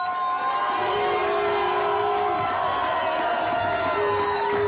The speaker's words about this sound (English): So let's have some cocktails and have a good time tonight. Yeah, let's do that. Let's hear it for the Viper Room.